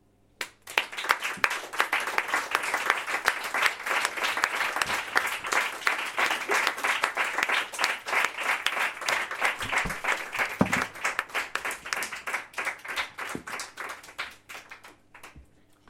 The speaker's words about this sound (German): Okay, das war nicht laut genug, Leute. Applaus!